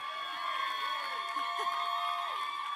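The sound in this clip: An audience cheers and whoops to welcome a speaker, a steady wash of crowd noise with scattered shouts over sustained musical tones throughout.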